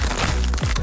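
Crisp crunching of Crunch tortilla chips, a brief, loud burst of dense crackling that lasts under a second.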